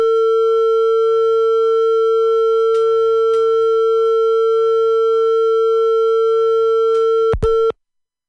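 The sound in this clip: A telephone tone sounds on the line after a call is disconnected. A steady, unbroken electronic tone holds at even loudness for about seven seconds, then ends abruptly with a click, leaving silence.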